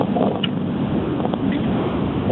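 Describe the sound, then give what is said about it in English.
Steady low road and engine rumble inside a moving car, heard through a caller's telephone line while she drives, a continuous muffled drone with no speech. “Hello. I'm driving. Can you hear me?”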